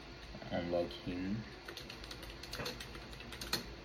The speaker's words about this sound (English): Once you go to your browser, you are going to type in, say it's my text